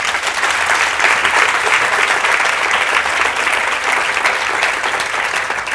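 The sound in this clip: An audience applauding to welcome a guest speaker at a talk in Scotland, a full, continuous round of clapping that stays loud and even throughout.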